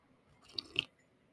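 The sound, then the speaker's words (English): A person slurps coffee in two quick, soft sips close together, faint and brief against quiet. “sorry, need a little coffee there. I don't mean to slurp in your ear. Oh, good coffee.”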